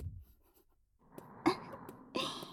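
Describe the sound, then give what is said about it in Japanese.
Faint scratchy strokes of writing on a sign, with soft rubbing marks broken by two brief, sharper scrapes near the end. “そうそう、ちゃんと読めるように書くのよ。見た人が一発でわかるようにね。”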